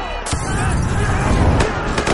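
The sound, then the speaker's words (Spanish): Police gunfire in a film riot scene: a few sharp cracks punch through a dense, loud roar of crowd commotion. “La policía dispara y les lanzan piedras.”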